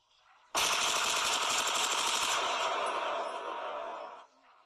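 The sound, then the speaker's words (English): Automatic gunfire from guns being shot: one loud, continuous rapid-fire burst of about four seconds with no talk, ending abruptly. “Grab your gun and let's get shooting.”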